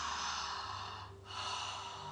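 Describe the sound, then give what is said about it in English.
A slow, deep inhaling breath during a guided meditation, a long airy rush of air. It dips briefly midway, then swells again. “And we're going to start now. Inhaling.”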